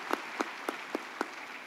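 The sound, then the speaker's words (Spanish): Five sparse, evenly spaced hand claps from a church audience asked to applaud during a service, crisp and fairly faint against a quiet background. “Por favor, tomen asiento y vamos a darles una vez más un aplauso para cada uno de ellos.”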